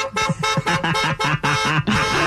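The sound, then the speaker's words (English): A voice imitates a car horn in a rapid series of loud, nasal honking blasts with a wavering pitch, with no other talk. “Just a warning. This is me doing the horn honks. You guys, is not somebody. Yeah, this is not somebody honking at you. This is me.”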